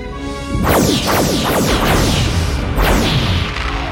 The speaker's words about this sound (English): Forward shields are gone. Let's get out of here. That may not be possible, sir. The starboard nacelle has sustained a direct hit.